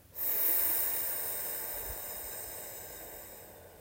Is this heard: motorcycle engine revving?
no